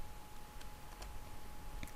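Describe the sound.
Faint keyboard typing while a function is entered in Excel: a few sparse, light clicks over a low, steady hum.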